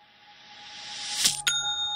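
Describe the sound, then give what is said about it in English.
A bright ding, an online shop's sale notification, struck twice in quick succession, the second leaving a clear tone ringing on to the end, over a faint rising hiss. “That sound always makes me smile because it's the sound of another sale on Shopify”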